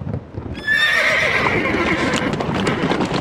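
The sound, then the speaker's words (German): A horse-drawn coach sets off as a horse lets out a loud, high whinny over a steady clatter of hooves, and the neigh stays strong above the hoof noise. “Kutsche nach Bukowina! Alle Passagiere einsteigen!”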